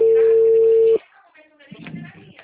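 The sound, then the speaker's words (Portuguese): Steady telephone tone after a dropped call, loud and unbroken for about a second before cutting off sharply, followed by faint, low voice-like sound. “nossa ligação caiu, tudo bem?”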